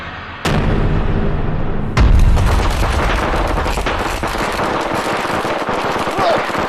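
A homemade explosive pack stuffed with firecrackers goes off: two abrupt, loud bursts, the second heavier, then a sustained roar of dense crackling noise.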